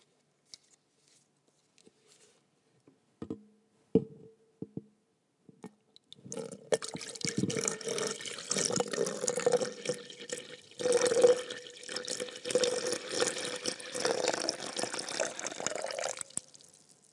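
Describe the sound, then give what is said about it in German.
Anointing oil, about 327 grams, poured from one container into another: a few soft scattered drips give way to a steady, continuous liquid stream that runs for roughly ten seconds before stopping. “Ich will es euch nochmal vielleicht zum Hören oder zum Genießen von einem Behälter in den anderen schütten.”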